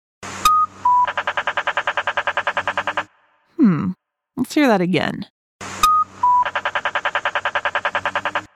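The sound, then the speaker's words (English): Accessible pedestrian signal at a crosswalk: two long runs of rapid, evenly spaced electronic beeps, each opened by a couple of short higher tones. Between the runs, a voice speaks briefly. “An accessible pedestrian signal. An accessible pedestrian signal, also called an APS.”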